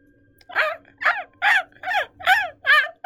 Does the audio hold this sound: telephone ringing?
no

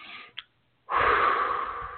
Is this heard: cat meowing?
no

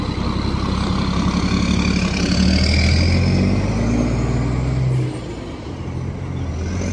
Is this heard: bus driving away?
yes

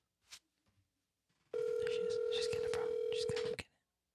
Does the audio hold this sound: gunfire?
no

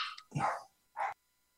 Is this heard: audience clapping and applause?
no

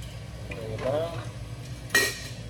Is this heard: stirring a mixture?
yes

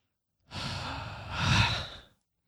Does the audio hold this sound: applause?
no

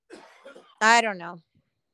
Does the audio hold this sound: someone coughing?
yes

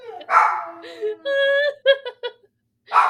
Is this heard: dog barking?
yes

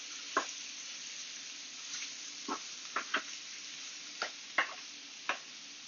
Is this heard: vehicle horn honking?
no

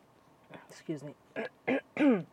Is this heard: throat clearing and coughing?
yes

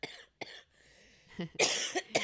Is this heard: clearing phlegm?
yes

